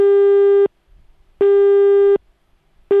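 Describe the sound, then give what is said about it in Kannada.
Telephone busy tone after a call line is cut off: a loud, steady low beep with buzzy overtones, switching on and off in an even rhythm of about equal tone and silence, repeating with nothing else heard. “ಬಹುಶಃ line cut ಆಯಿತು ಅಂತ ಕಾಣುತ್ತೆ”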